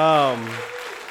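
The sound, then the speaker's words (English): A church audience applauds to welcome new members, steady clapping that starts beneath the tail of a speaking voice and carries on alone. “Let's give them a hand, right?”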